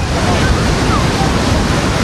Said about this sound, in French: Les vagues sont particulièrement puissantes ce dimanche à Maroubra